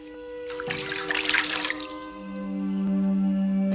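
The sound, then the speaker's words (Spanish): Water pours from a jug into a washbasin, making a splashing, gurgling stream that swells for about a second and a half and then fades, while a sustained low tone carries on beneath it. “vierte agua de la jarra en una palangana”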